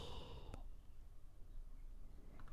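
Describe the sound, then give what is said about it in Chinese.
A slow, deep exhale during a breathing exercise, a soft, breathy release of air like a sigh, faint and alone. “吸到顶点，然后稍微憋一会儿，呼气，”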